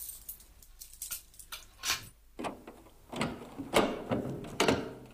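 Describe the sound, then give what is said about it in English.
A bunch of keys rattles as a van's locked rear doors are opened, heard as faint, irregular metallic clicks, clunks and rattles spread across a few seconds. “The van's rear doors were locked, but the sergeant had his bunch of keys with him.”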